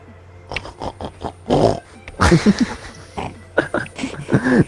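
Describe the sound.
A human voice imitates a boar with many short, rough grunting and snorting bursts in an uneven rhythm, some louder and more drawn out than others.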